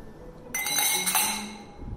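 Glasses clink together in a toast during a whiskey drinking session at home with friends. A sudden bright, ringing chime sustains and shimmers, then slowly fades away.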